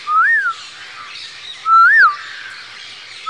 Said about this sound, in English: The parrots are singing, just like here we're hearing the parrots sing.